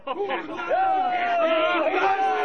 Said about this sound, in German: Im Dorf werden die Freunde stürmisch begrüßt.